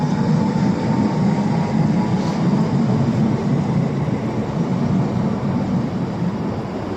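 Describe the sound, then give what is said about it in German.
A regional train pulls away on departure with a continuous broad, low rumbling roar. The sound holds steady throughout and eases slightly toward the end. “Jetzt fährt die 11E nach Waren los.”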